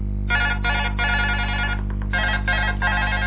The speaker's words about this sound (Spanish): Voy a atender el teléfono, que me animo a decir, y claro, ¿quién es el que está llamando?